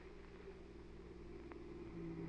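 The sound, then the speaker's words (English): A car pulls into a hospital driveway at night. Its engine gives a faint, steady low hum that grows slightly louder toward the end. “Here comes a car in the drive.”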